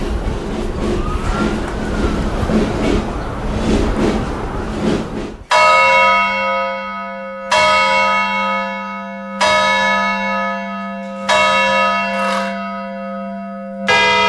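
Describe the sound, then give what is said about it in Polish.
Clock tower gongs without clappers, struck from outside by hammers, ring out over a castle square. Several loud, resonant strikes follow at roughly two-second intervals, each leaving a long humming decay. Before them comes a noisy stretch with a rising siren-like tone. “To nie są dzwony, tylko to są gongi. Znaczy fachowcy tak mówią zawsze. My mówimy oczywiście dzwony, ale nie, to są gongi w tym sensie, że nie mają serca. Nie mają. Uderzenie bijaków jest z zewnątrz. Tak działają dzwony zegarowe.”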